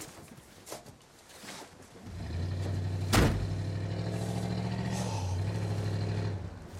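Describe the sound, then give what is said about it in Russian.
A police car drives past with a steady, low engine rumble that rises in and holds. One sharp, loud thump cuts through near the middle. “Полиция проезжает мимо.”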